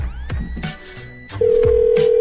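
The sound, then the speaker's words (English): A telephone call being placed: a few brief blips and clicks, then a steady, loud, unbroken line tone that starts past the midpoint and holds to the end. “I don't want to wait for this guy. I'm just going to call him back right now.”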